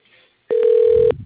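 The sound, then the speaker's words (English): A single steady electronic telephone tone sounds as a call is patched through to voicemail, a clean mid-pitched beep lasting just over half a second after a near-silent moment. “if you want to just patch me over his voicemail, that would be fantastic”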